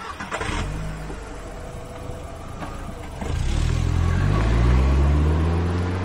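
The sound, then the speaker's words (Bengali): A car engine runs at a low idle, then revs up louder with rising pitch as the car pulls away and keeps accelerating. “গাড়ি চলে গেল।”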